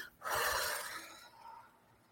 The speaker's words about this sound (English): Everyone needs to take a deep breath tonight, I think.